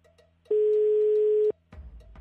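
A single steady telephone line tone on an unanswered call. The flat, loud beep lasts about a second and is followed by quieter low noise.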